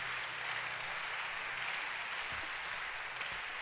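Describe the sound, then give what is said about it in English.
A church audience claps their hands during worship, a steady, fairly faint wash of many hands clapping together without pause. “Hallelujah, hallelujah, hallelujah. Clap your hands for Jesus.”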